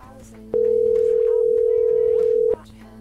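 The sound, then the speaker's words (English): A telephone rings with no answer: one steady, mid-pitched ring-back tone sounds for about two seconds, then stops. People talk before and during the tone. “No, I don't think Denise wants to pick up. Let's try the other dialing machine, though. Could be a dead number.”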